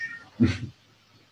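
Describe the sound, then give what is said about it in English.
A house cat meows once, a short loud cry that rises out of a quiet background and then fades. “Any cat sound you hear, just consider it feline sound healing.”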